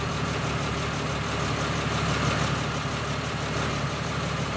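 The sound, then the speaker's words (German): A van engine runs with a steady, continuous rumble on a dark dirt track, holding an even level throughout with no clear change in pitch. “Dalton und der Kastenwagen holperte über eine stockfinstere Staubpiste zur Quecksilbermine. Bruce parkte das Fahrzeug auf dem verwaisten Besucherparkplatz.”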